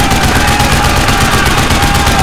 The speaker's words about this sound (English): Open fire! Open fire!